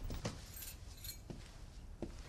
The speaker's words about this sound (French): Maman, c'est moi, ma clé marche pas.